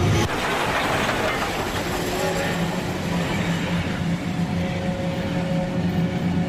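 Continuous rumble of a train running on tracks near a village station at midnight, a broad, steady roar with a faint sustained whine threaded through it.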